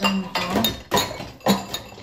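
Knives and glasses clink as they are set into a kitchen rack with wire holders, a few sharp clinks and clatters spaced across the moment, with some low background noise between them.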